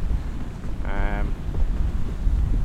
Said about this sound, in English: The weather's really, you can hear it in the background. I mean, it's just wet and sleety and cold.